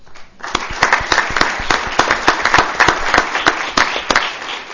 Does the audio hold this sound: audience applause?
yes